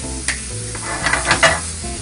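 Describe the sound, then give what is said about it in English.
A fork whisks two eggs quickly, giving a few sharp clinks and scraping taps over a steady background hiss. “So I'm gonna use my fork. Whisk these eggs up real quick.”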